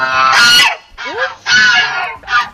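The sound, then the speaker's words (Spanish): Geese honking: guard geese that raise the alarm when something strange happens nearby give a few loud, harsh, nasal honks in separate bursts, with short gaps between them. “Podría ser gallego perfectamente, que a mí me suena a un equino, sean las ocas, que resulta que son las encargadas de dar el aviso si pasa algo extraño a su alrededor.”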